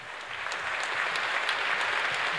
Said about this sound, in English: let's give Holly a big round of applause.